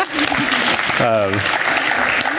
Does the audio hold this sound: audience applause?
yes